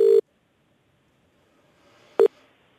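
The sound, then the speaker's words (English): A telephone rings on an outgoing call: two short, steady mid-pitched ringback tones sound, separated by about two seconds of near silence. “My colleague Anusha Bradley gave Ryan Hamilton a call.”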